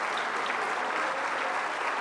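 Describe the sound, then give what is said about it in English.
A church audience giving a big hand clap of praise: a dense, even roar of many hands applauding at steady volume throughout, with no single voice rising above it. “let's give the Lord a great big hand clap of praise.”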